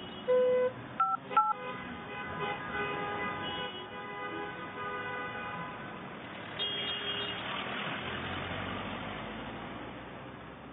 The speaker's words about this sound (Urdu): اب آپ ایک کام کرو، جو ہے نا ڈرائیور کو فون کر کے بولو